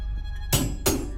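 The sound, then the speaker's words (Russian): Two sharp hammer blows on a metal skewer held point-first against a crack in a wall, each strike a short, bright metallic crack standing out over a quiet low background. “Он приставляет шампур острым концом к трещине в стене на уровне глаз и бьет по нему молотком.”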